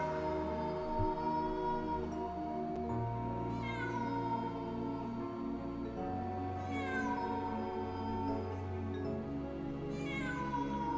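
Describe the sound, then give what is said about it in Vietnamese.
A cat yowls resentfully while following close behind, in long, drawn-out wails that fall in pitch. Three cries come a few seconds apart over a low steady drone, all fairly faint, with no voices. “Đằng sau là tiếng con mèo vẫn bám sát đằng sau lưng, tiếng kêu đầy oán hận.”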